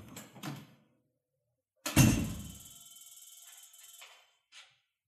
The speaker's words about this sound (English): Luckily, the door didn't slam.